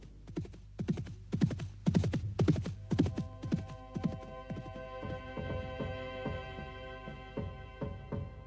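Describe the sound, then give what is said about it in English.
Hoofbeats of a horse at full gallop, rapid rolling thumps in repeating bursts, fairly quiet overall, with the pounding easing later as a low, sustained hum fills in beneath. “Thomas was gone, galloping towards his destiny on the other side of the Channel.”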